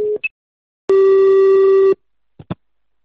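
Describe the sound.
Telephone tones as a number is dialed: a short low beep and a higher blip, then a steady, loud tone lasting about a second, followed by two brief clicks.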